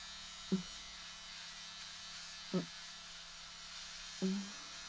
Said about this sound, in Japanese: VIO の I、 おちんちんの根元のところとお金玉にも生えているので剃っていきます。